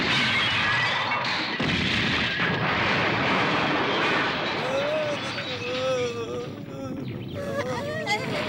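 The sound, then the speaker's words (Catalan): A light aircraft flying over a jungle crashes into trees, loses both wings and explodes, in a dense, continuous rumble of crashing and blasting noise with faint tonal whines near the end. “Una avioneta que sobrevola una selva perd alçada ràpidament, impacta contra un arbre i perd una ala, impacta contra un altre arbre i perd la segona ala, finalment s'estavella contra un tercer arbre i explota.”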